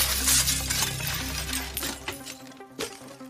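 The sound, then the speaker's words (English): Window glass is smashed in by soldiers forcing entry. A loud shattering crash gives way to bright tinkling shards, all over a low sustained droning tone that fades as the breaking settles. “Two soldiers smash in a window and climb into Anna's room.”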